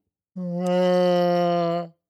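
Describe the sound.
A human voice imitating a humpback whale contact call: one sustained, low, steady moaning tone that holds level for about a second and a half, heard alone.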